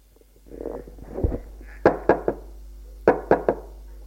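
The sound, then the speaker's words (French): Knocking on a closed door: two quick sets of three sharp, hollow raps, preceded by a low, soft rustle, with no voices. “Restée fermée, elle frappe encore une fois.”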